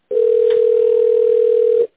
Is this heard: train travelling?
no

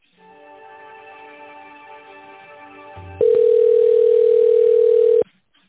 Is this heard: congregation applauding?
no

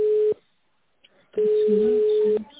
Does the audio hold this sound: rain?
no

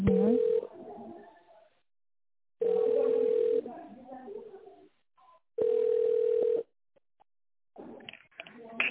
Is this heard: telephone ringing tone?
yes

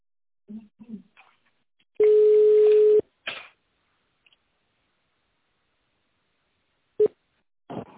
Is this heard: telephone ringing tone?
yes

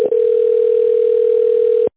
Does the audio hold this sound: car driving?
no

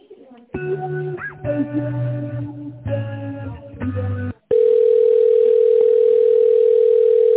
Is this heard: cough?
no

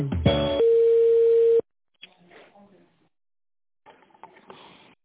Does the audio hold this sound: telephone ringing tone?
yes

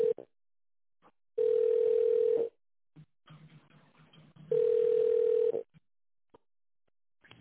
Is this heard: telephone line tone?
yes

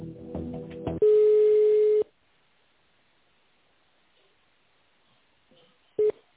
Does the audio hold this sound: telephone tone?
yes

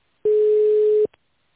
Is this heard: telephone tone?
yes

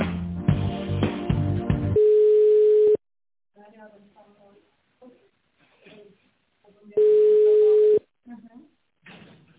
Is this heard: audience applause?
no

